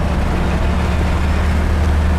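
A car is being driven, giving a steady, loud, low engine and road rumble that stays even throughout with no voices.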